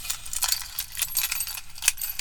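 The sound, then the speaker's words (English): Car keys jangle in a steady stream of light, bright metallic clinks and rattles, fairly quiet throughout, with one slightly sharper clink near the end. “these are my car keys”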